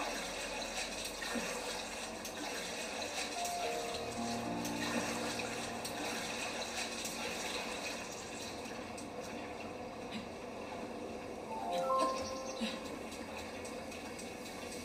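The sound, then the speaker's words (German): Faint watery sloshing and gurgling as a character swims in The Legend of Zelda video game, a low steady wash of water with a few soft tonal chimes over it. “Jetzt müssen wir kurz ein bisschen schwimmen.”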